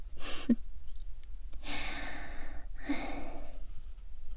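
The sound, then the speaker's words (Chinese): Heavy panting breaths: three loud, breathy exhalations. The first is short, and the next two are long and drawn out, with quiet gaps between them. “呼吸吧，呼吸吧。这样大口大口的喘气，还真有意思呢。”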